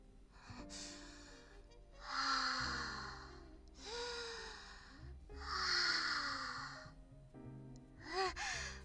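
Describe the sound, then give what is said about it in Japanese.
Several slow, deep breaths, each a soft, airy rush lasting about a second with faint sighing voice tones mixed in. They are fairly quiet and heard alone. “緊張しちゃって。深呼吸しますね。”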